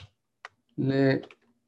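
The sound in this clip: Typing on a computer keyboard: a few sparse, faint keystroke clicks, with a short stretch of a man's voice between them.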